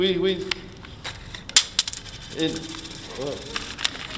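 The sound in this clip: Dimes dropping, with several bright metallic clinks and taps clustered around the middle, the sharpest hit standing out among them. Faint voices sound softly around the coin sounds.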